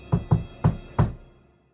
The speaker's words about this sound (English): So he knocked on the door and said,